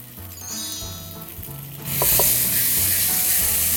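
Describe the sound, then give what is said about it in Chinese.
Loud, steady sizzling of vegetarian shiitake mushrooms stir-frying in oil, jumping up sharply about halfway through to a bright, hissing crackle with a couple of brief clicks, over a low background hum. “让这个我们的这个素香菇地让它爆香，然后这时候再加那么一丢丢醋下去就好了。”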